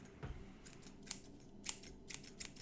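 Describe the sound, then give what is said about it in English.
Scissors snip in several faint, crisp, dry clicks, spaced unevenly and heard alone over a low hiss. “Did you hear that? Was that some scissors?”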